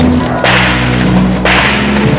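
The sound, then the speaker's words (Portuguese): Gunshots ring out during a shootout between police and traffickers in a favela: two sharp cracks about a second apart, loud against a dense, steady background roar. “Em outro ponto, os bandidos continuam atirando.”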